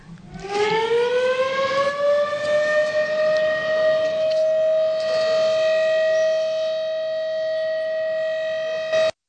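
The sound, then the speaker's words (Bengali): A civil defense air raid siren sounds during a mock air raid and blackout drill in Nagaland. Its wail rises in pitch at the start, then holds a loud, steady tone for about nine seconds before stopping abruptly. “সব দশটা designated civil defence districts খান ডিমাপুর কহিমা গুকচং ওখা জনহপুতো মন fake থুয়েনসং কিফরি আর পেরেন্দি রাখিছে sirens সাম ছয় বাজি আধাবরা দু minute কারণে বাজাই রাখিছে”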